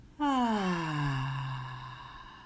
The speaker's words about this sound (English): one last time together. Breathe in and out.